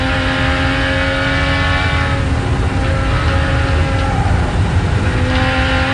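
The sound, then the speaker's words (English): A race car drives across the top of a mountain circuit, its engine a loud, steady, unbroken drone that holds an even pitch throughout with no voices. “Walkinshaw working at the wheel through Toledo, turn across the top of the mountain now at Castrol and McPhillamy Park.”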